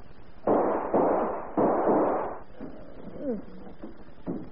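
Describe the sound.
Gunshots ring out during a struggle over a gun: a few sharp bangs, each with a long, fading noisy tail, followed by quieter sounds and a voice.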